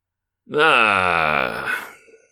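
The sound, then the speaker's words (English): A voice imitates a groan of pain and recognition: one long, strained, voiced groan that swells quickly, holds steady, then sags and trails off into a breathy fade. “how am I supposed to convey to you a groan of recognition and pain? Let me give it a shot.”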